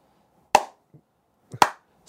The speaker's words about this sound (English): He says sarcastic to the tune of his clapping.